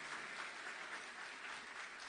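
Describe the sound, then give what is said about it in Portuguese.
Applause from an audience at a church service: steady, continuous crowd clapping, faint and even throughout, with no talk over it. “Pode aplaudir.”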